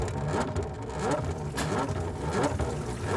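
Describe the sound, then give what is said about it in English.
A homemade air compressor of pipes and valves, started by hand crank and still full of kinks, gives a rough, continuous mechanical whir with rattling, chugging pulses at a steady, fairly loud level. “Sorry for the noise. She's still got some kinks. Now, let me explain. This is a compressor that squeezes the air.”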